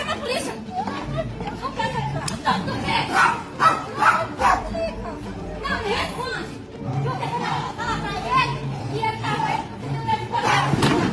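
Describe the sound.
A dog barking repeatedly during a loud neighbourhood fight over infidelity, with sharp barks and yips breaking through heavy chatter and raised voices.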